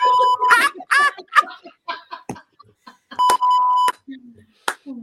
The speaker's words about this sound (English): Are you beeping yourself?